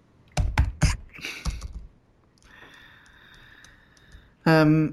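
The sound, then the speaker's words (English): Keys struck on a computer keyboard in a few loud, sharp clacks, followed by a quieter steady tone and a brief voice at the end. “you need to learn how to type lighter”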